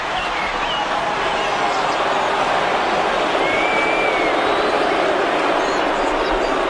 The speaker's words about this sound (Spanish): Y el público reacciona de forma visceral ante la presencia de Justiniano. Ciertamente, las facciones verdes y azules demuestran una agresividad nunca antes vista en el hipódromo de Constantinopla.